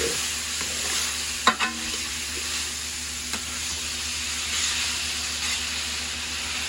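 Food is stirred and mixed in a sizzling pan. A steady frying hiss runs throughout, broken by a few sharp scrapes and knocks of the utensil, with no talking.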